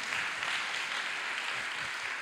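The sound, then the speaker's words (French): Audience applause after a speaker at a round-table discussion on libraries, a soft, steady hiss of blended clapping with no distinct individual claps, even in level from start to finish. “je crois qu'on peut applaudir Eric”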